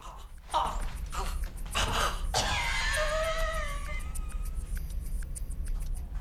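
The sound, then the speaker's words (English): A man chokes, with a few harsh coughing gasps and throaty bursts giving way to a strained, rasping wheeze like a death rattle, fairly faint and alone. “He suddenly drops the cigarette, grabs his throat, and has a choking fit, culminating in a death rattle on the floor.”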